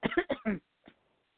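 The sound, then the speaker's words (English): A congested person coughing: four quick, loud bursts close together, then a short pause and one fainter cough. “It's a coughing podcast.”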